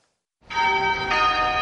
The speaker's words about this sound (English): The bells of St. George's Cathedral in Cape Town toll for the tiny clergyman who looms so large in the hearts of many South Africans.